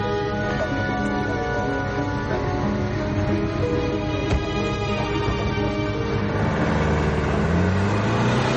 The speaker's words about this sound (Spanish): Charlie, el hombre que la sigue, avanza unos metros con su coche hasta la papelera